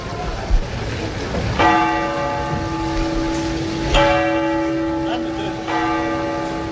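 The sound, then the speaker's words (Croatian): The bell of the city clock tower in Dubrovnik rings three times at even intervals. Each strike is loud and clear, with a long, ringing tone that hangs on and fades slowly. “Dubrovački gradski zvonik sa satom, kako ga zvaše na početku ovog našeg stoljeća i dobnik, pamti stoljeća.”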